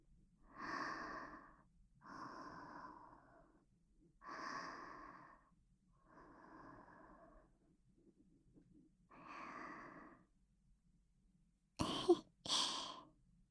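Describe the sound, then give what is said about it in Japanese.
Breathing close to the listener's ear: five slow, soft, airy breaths at an even pace, followed by two short, sharp bursts of close sound. “うちの呼吸音聞こえとる？”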